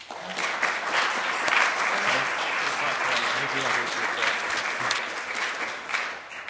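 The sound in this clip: An audience at a lecture applauds to welcome the speaker: loud, dense, steady clapping that carries on without a break for the whole stretch and eases slightly at the very end.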